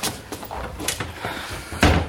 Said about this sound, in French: Attends, je ferme la porte.